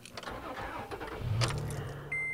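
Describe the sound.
A car engine cranks and catches, settling into a steady, moderately loud rumble for about two seconds; a thin, steady high tone enters near the end.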